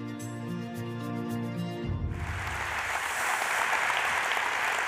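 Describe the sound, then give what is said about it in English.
A church audience claps to welcome a pastor to the stage. Music plays first, then gives way to broad, steady applause that swells slightly and continues to the end. “So I want you right now at all of our campuses to put your hands together and join me in welcoming Pastor Ryan Kwan.”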